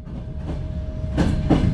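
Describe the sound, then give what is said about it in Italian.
An overcrowded passenger train bound for Lviv rolls along the rails with a steady low rumble, broken by two louder wheel clacks near the end. “Il treno per Leopoli è stracarico, gli scompartimenti sono pieni, soprattutto di donne e bambini.”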